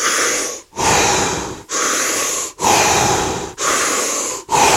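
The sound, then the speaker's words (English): Rebirth-style breathing, drawn in and out through the mouth with no pause at top or bottom: loud, airy, continuous cycles in a steady rhythm, each breath flowing straight into the next. “So it's the rebirth style breath that Ryan and I teach, through the mouth, into the lungs, out through the mouth, no pausing. So it sounds a bit like this.”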